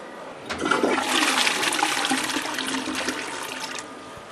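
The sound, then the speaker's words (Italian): A toilet flush: one rushing surge of water that starts abruptly, holds steady and fairly loud for about three seconds, then cuts off, with no talk over it. “Questo rumore dello sciacquone al quale noi siamo così tanto abituati sullo shuttle sarebbe una tragedia”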